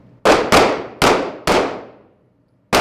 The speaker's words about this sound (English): They draw their new handguns out of their holsters and wait for their cue. Shooters, be alert. Then they fire.